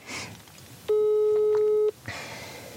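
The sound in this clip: Phone ringing tone from a call placed on arrival while parked outside an old villa: one steady electronic tone lasting about a second, with low background noise before and after.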